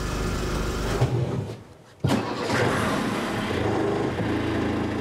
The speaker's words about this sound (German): Kurz vor dem Abendbrot ist das neue Getriebe eingebaut. Es läuft wie geschmiert.